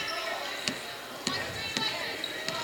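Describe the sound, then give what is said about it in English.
Basketball dribbled on a court during a women's basketball game: a few sharp, punchy bounces at an uneven rhythm, heard under steady crowd noise and commentary voices. “Now with the dribble between the circles.”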